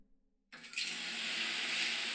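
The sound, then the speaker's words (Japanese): Warm shower water bursts on abruptly after a moment of silence and pours over a seated person, settling into a steady, soft hiss of spray that grows slightly fuller as it runs. “座ったままでシャワーのお湯をかけていきます。”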